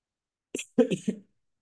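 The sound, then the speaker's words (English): Coughing from a person getting over a cold: one short cough, then a quick run of three rougher, throaty bursts, loud against silence. “I have a cough, by the way, you know. Getting over a little cold, so y'all excuse me. I may be coughing a lot”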